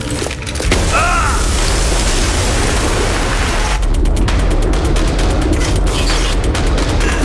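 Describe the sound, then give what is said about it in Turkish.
A tank rumbling through a battle: a loud, unbroken low roar fills the whole stretch, with rapid bursts of gunfire crackling over it in the later part. “Ay lanet olsun, bu bir tank!”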